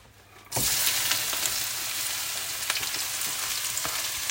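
Food fries in a lot of oil, a loud, dense, steady sizzle that starts abruptly after a brief quiet moment and continues with scattered small crackles and pops.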